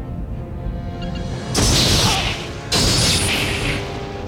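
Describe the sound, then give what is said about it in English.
Star Trek Voyager firing torpedoes in a space battle: two loud, bright whooshing bursts about a second apart over a constant low rumble. “And Voyager to the rescue, firing some torpedoes. Shields are down.”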